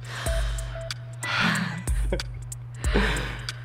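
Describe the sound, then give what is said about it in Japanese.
A few slow, deep breaths, each a long, airy rush in and out, are heard alone over a steady low hum. “深呼吸を3回皆さんやりましょう”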